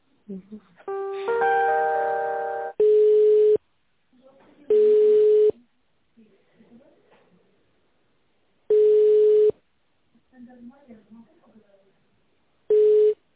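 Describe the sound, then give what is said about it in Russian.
Telephone tones during a call transfer: a short rising electronic chime, then four separate steady beeps at the same pitch, spaced by quiet gaps that hold faint muffled sounds. “Сейчас, одну секундочку, я вас переключу.”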